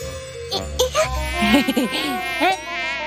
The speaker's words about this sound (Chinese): 蚊子， 哎，好痒啊！